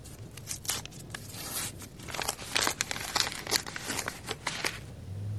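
Paper envelopes are handled and opened with many crisp, irregular crinkles and tearing rustles, fairly quiet and growing busier toward the end.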